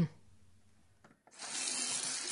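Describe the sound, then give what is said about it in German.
Tap water runs into a sink while hands are washed; after a quiet opening, a steady, soft hiss of flowing water starts and continues to the end. “Immer Hände waschen. Leitungswasser ist ausdrücklich auch Trinkwasser.”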